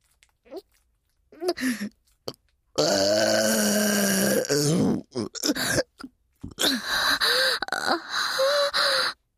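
Loud, crude burping: a few short guttural sounds, then two long, drawn-out belches lasting a couple of seconds each, with brief breaths between.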